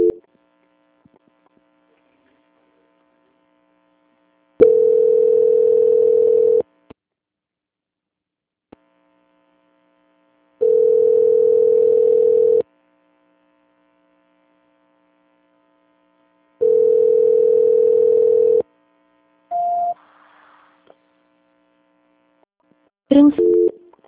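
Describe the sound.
Telephone line tone during a call transfer: three long, steady, mid-pitched beeps about six seconds apart with near silence and faint hum between them, then a couple of short tones near the end.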